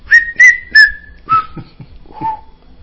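A man whistles a short tune on a film set: about five clear, pure notes, the first three higher and the later ones lower, with soft breathy noises between them and no talking.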